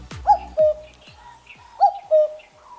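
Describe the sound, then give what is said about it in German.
A cuckoo calls twice during a bird-call guessing game, each call a clear two-note descending 'cu-coo' with a pause between the pairs and nothing else heard. “Das ist der Kuckuck.”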